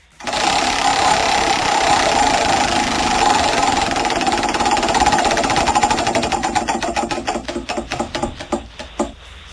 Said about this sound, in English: spin the wheel